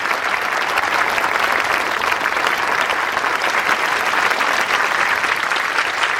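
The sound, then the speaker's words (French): Families applaud at a graduation ceremony, a dense, steady wash of clapping that holds at an even loudness for the whole stretch, with no voices standing out. “les lauréats sont mis en avant et les familles énamourées applaudissent. C'est la remise des diplômes.”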